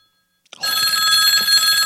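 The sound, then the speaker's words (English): A telephone rings, starting abruptly after half a second of silence and continuing as a loud, bright, steady trilling tone. “You have a voice note. It's ringing.”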